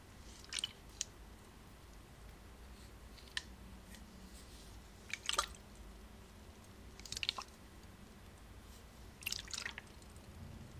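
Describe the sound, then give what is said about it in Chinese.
Water dripping: a few soft, wet drip clicks spaced seconds apart, faint over a low steady background hiss. “对，是水的声音。”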